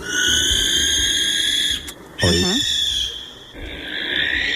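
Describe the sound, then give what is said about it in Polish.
A barn owl gives a harsh, shrill call. The long, sustained screech holds steady at moderate loudness and breaks off briefly twice before resuming. “To jest sowa, płomykówka, urocze stworzonko z piękną twarzą, prawda? I ona brzmi tak.”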